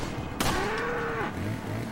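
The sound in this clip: A cow mooing in a video game. A single low, sustained moo follows a brief sharp knock, set faintly over steady background ambience.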